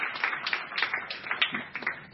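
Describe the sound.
Audience applause welcomes two speakers at a policy talk, a steady wash of many hands clapping with uneven surges and dips in loudness, no voices over it.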